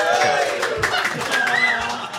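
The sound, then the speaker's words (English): Audience cheering and clapping at a live show: whooping voices rise and fall over scattered claps, loud and lively throughout. “When you agree with my decision, you should be clapping and cheering. Yeah, go ahead. Give it a try.”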